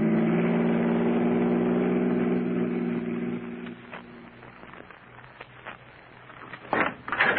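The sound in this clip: A car engine used as a driving sound effect in a radio drama: a steady mid-pitched drone that drops in level after about three seconds, followed by faint knocks and rattles and a louder burst near the end.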